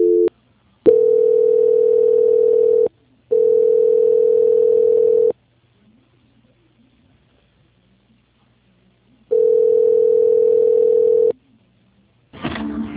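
A steady mid-pitched telephone tone plays during a call transfer: a brief tone, then three long beeps of about two seconds each, with a long silent gap before the last, followed by a noisy burst.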